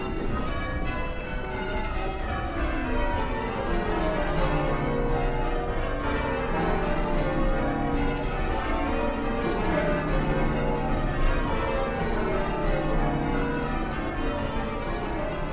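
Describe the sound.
Church bells ring in sequence, with the treble bell going first, in a steady, continuous cascade of many overlapping bell strikes that ring alone at a moderate level.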